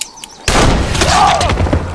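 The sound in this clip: A single pistol shot follows a quiet lead-in: one sudden, loud crack with a broad, rumbling decay that lingers for over a second.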